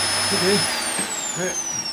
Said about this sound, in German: jetzt mach doch mal den Staubsauger aus!